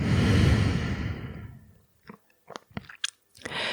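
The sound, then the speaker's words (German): Slow breathing during a guided relaxation exercise: a long, airy exhale gradually fades to near silence. A few soft mouth clicks follow, then a new breath begins. “Atme nochmal ein und atme aus.”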